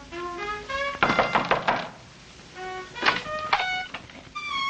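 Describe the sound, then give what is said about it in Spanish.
Knocking on a door in an empty hallway: two clusters of several firm, hollow knocks separated by a pause, with soft melodic music playing underneath. “se detiene frente a una puerta y llama”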